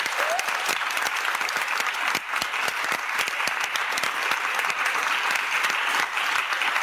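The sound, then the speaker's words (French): An audience in a parish church applauds the choir with steady, dense clapping that holds at an even level for the whole span. “On acclame très fort les choristes qui sont là, tous les choristes qui sont là, tous les choristes.”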